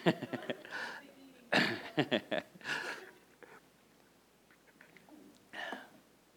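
Faint coughing and throat clearing from a person with donut crumbs caught in the throat. It comes as a few rough, breathy bursts in quick clusters, with quiet pauses between them.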